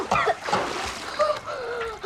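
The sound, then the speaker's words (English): Water splashes and sloshes as a child is lifted out of a bathtub: a few uneven splashing bursts over a steady watery wash, fairly loud throughout. “Anna runs in, leaning by the tub and lifting Sam out of the water.”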